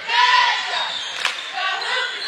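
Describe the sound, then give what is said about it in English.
A basketball dribbled up the court during a game, a few dull bounces beneath a steady wash of crowd noise. “will dribble things up to reset the offense at midcourt”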